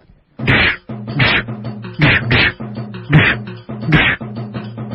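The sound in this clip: Fists pound on someone's back to ease body aches, landing one at a time as about six dull, loud whacks at uneven spacing, over a steady low hum.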